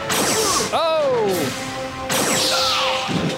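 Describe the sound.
Punch landing on a character in a video game: two sharp smacking impacts with whooshy tails amid busy game sound, and a voice crying out between them.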